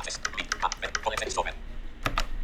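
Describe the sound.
Typing on a Logitech MX Mechanical keyboard: many quick keystroke clicks in an uneven rhythm. A brief lull comes before a couple of sharper, louder clicks near the end.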